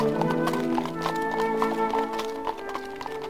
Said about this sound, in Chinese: 乔偷偷地从后门走出去，拦住了一辆马车，跳了上去。